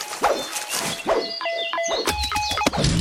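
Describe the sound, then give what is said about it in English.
A mine exploding in a shooter video game: a couple of sharp hits and short electronic beeps give way to a heavy, crunching low blast in the final second. “Oh, I think I landed on one of my own mines.”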